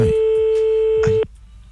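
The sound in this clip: Telephone ringback tone on an outgoing call, a steady, mid-pitched continuous tone that holds for just over a second before cutting off abruptly into quiet line noise.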